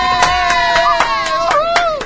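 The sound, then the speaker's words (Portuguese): Applause jingle sound effect: steady, evenly spaced claps roughly every quarter second, layered over a bright sustained tonal melody that wavers slightly in pitch, loud throughout. “Vinheta de palmas, por favor, Arthur Rosa.”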